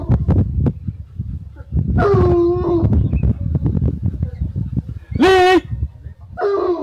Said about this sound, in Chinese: 这头呢叫阿郎，它是一头昆明犬，我训练的科目是搜捕。